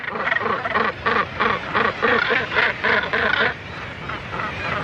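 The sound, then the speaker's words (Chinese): A northern gannet breeding colony calls on Little Skellig, a small North Atlantic island where tens of thousands nest. Harsh, rasping calls repeat in a rapid regular rhythm, then ease into a lower background murmur for the final second or so. “每年有数万只北接鸟在此筑巢育雏。”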